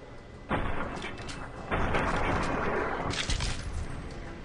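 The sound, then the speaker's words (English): Gunfire in a video game played with a controller: a continuous, noisy barrage with a few harder bursts of shots punching through a constant rumbling crackle. “How do I fire? Hit A.”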